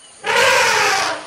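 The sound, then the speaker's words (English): An elephant's trumpeting call, air forced through its long trunk, bursts out as a single loud, brassy, blaring blast that lasts under a second before cutting off. “That sound you're hearing is an elephant. That's its trumpeting call. Elephants make that noise by pushing air through their long trunk, and it's loud.”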